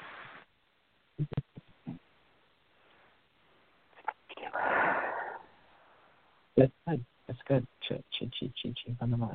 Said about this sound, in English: I need you to take a big breath in through your nose and out through your mouth for releasing.